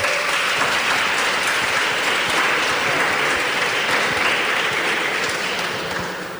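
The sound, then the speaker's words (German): An audience applauds a panel member at a podium event: a thick, even wash of many clapping hands that holds steady throughout, then fades slightly at the end. “Also für Mio brauchen wir dann auch nochmal Applaus.”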